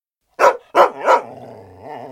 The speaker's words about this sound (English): continued barking loudly